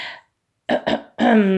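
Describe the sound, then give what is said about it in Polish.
A voice clearing its throat in embarrassment: two quick, rough rasps followed by a short voiced hum, brief and fairly loud. “Tata chrząknął z zakłopotaniem.”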